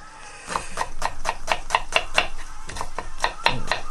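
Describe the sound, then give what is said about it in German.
A knife chops an onion on a cutting board in a steady run of many crisp, evenly spaced strikes that break off briefly midway and then resume. “Ich schneide die Zwiebel, meine ich.”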